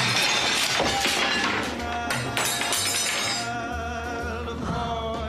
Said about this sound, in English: How many times did he throw that plate of food at the wall in that scene?